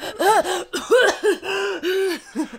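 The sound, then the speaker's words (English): A voice imitates gagging and coughing with a run of several short, strained, throaty bursts in an uneven rhythm, each with a tight, choking tone and brief pauses between them. “I personally would like gag and cough and splutter and stuff. I'd be like,”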